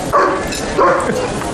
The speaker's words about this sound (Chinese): 恶狗挡门，我进不去呀、啊。 老头儿，说谁是恶狗呢？ 这不是狗吗？